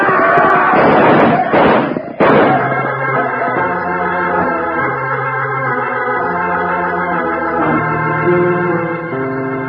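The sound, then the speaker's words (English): Gunfire in a radio drama comes as a quick flurry of sharp bangs in the first two seconds. Steady music carries on after the shots. “They're shooting at the boys. We'll stop that. Open up on them.”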